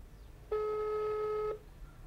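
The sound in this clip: Ringback tone of a phone call going unanswered: a single steady ring lasting about one second with a buzzy, even pitch, alone over a faint background hiss.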